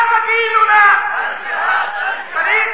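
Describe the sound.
A crowd shouts in unison, answering the Nara-e-Takbeer call at a religious speech. Many voices merge into one loud, sustained chanted cry that holds for a few seconds with slight swells.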